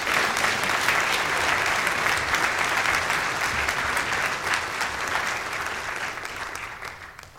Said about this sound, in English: could we please just welcome Tom as he comes up to the stage here. Let's give him a big round.